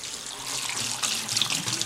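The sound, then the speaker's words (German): Tap water runs steadily into a kitchen sink as flower stems are rinsed under it. It makes a continuous, fairly even splashing hiss that swells slightly partway through, with no voices. “Ich nehme die Blütenstängel, die wir gesammelt haben, und tue sie gerade mal zuerst unter dem Wasser kurz abspülen.”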